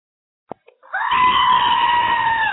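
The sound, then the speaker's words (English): A loud human scream of pain, as from back pain, comes after two faint short ticks and holds as a steady, high, drawn-out wail lasting more than a second. “Did you hear that sound? Well, that's the sound of back pain.”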